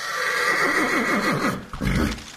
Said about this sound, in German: statt mit dem Auto ist es für die Gäste plötzlich mit Ross und Wagen weitergegangen.